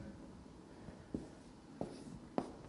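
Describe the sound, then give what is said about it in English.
Faint scratchy writing on a board, a soft continuous scrape broken by a few brief, slightly louder taps of the writing tool. “I'm just going to write it down this way.”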